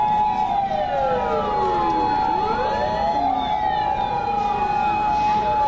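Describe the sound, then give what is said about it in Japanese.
A passing emergency vehicle's siren wails loudly and continuously, its sweeping tones rising and falling throughout while visitors watch. “緊急車両の車が1台通っておられるんですけれども”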